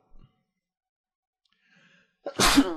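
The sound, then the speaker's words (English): A single loud, explosive sneeze bursts out near the end, after a brief faint sound at the start and a stretch of near silence. “Bless you.”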